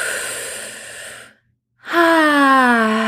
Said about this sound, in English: I invite us all to take a deep breath into our bellies.